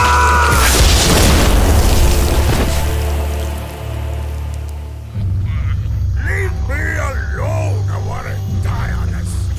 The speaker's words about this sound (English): And Sykes's head explodes.